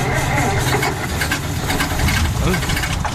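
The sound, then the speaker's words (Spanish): A car engine falters and stalls, giving a rough, uneven mechanical rumble that runs loud throughout with irregular knocking. “Vaya, el motor se ha encasquillado.”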